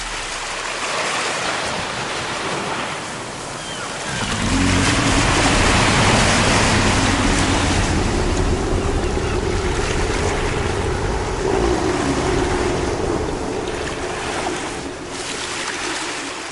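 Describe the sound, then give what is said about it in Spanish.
Huge ocean waves crashing and churning in a loud, continuous roar of rushing water that swells after a few seconds, with a steady low drone beneath. “el gran Cthulhu penetró en las aguas e inició la persecución con golpes que levantaron enormes olas.”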